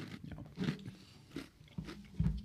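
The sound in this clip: Quiet chewing and crunchy bites of Oreo cookies with peanut butter. A few crisp crunches stand out over soft, moist mastication, with the last bite the strongest.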